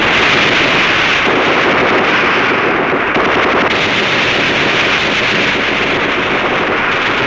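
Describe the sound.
Machine gun firing in a long, loud, unbroken burst, a dense roar of rapid shots that blurs into a steady wall of noise without pauses or voices.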